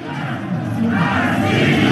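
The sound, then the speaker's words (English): Crowd at a pro-Russian rally in eastern Ukraine, a dense roar of many voices shouting together that swells slightly louder partway through. “This is the sound of pro-Russian rallies there.”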